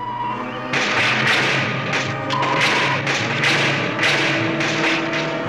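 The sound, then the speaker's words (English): The starship Enterprise bridge juddering as a sound effect: a loud, continuous rumbling roar that surges and pulses in waves, with a low droning hum beneath. “Ready to reverse polarity, Mr. Sulu? The butadin standing by to generate, sir. Activate all units. The bridge judders.”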